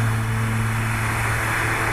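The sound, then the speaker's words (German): Steady whirring fan of a mortuary cold-room cooling unit, a continuous even wash of airy noise over a low droning hum that holds constant throughout with no breaks. “Das ist die Bläse von, von der Kühlanlage, die wir hier haben.”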